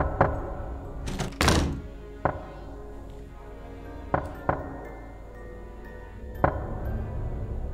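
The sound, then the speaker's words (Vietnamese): Sharp, hollow knocks on the sheet-metal side of a car come as a handful of irregularly spaced raps, one louder than the rest, with quiet pauses between them. “tiếng cứ cộc cộc cộc vang lên, tiếng gõ vào thành xe bằng tôn nghe đến rợn cả người.”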